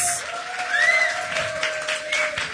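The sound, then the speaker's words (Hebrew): Audience applause for a fish taverna restaurant, with steady, dense clapping from a crowd that swells and eases slightly throughout. “תנו כפיים למסעדת פסקדוס”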